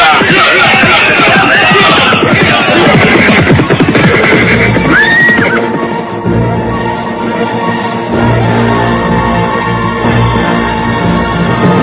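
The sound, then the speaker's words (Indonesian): A horse whinnies once amid a loud, dense commotion of bandits mounting their horses after a robbery, with voices and bustle running throughout. “Naik ke atas kuda masing-masing!”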